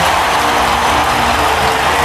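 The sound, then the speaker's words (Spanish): A sustained ovation greets a guest's entrance, with many hands clapping in a dense, even, loud roar that stays unbroken throughout. “Entra el Tito Berni, atención, un aplauso. Ahí está.”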